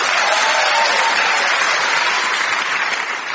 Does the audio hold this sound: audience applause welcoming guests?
yes